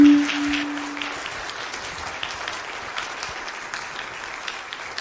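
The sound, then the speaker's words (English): Audience applauding, a dense patter of many hands that is strongest at the start and gradually thins and fades, with a faint steady tone heard briefly at the outset. “Go ahead one more time. I know we've clapped a lot”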